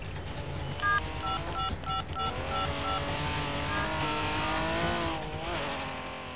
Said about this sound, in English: You have just heard. The Porsche only arrives and the Trabi is already there.